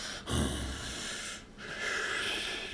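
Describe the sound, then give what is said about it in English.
A man imitates the heavy breathing of the horror villain Michael Myers with two long, hissy, rasping breaths. A brief snorting intake comes first, then a longer drawn-out breath fills the rest. “He doesn't talk. He's a big dude who doesn't talk and he just breathes.”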